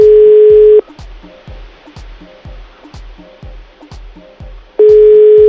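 A telephone busy signal on an unanswered call: a loud steady tone, then many rapid, evenly spaced beeps, then the steady tone returns. No voices.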